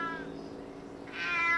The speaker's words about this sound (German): Hier sind immer viele Katzen. Während wir sprechen, schleicht eine Katze um den Hof.